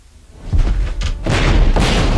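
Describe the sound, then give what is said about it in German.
Artillery fire booms in a war-film trailer set in Berlin in April 1945: a deep, continuous rumble with a few heavier blasts swelling over it, growing louder and denser toward the end. “Das ist ja Artillerie.”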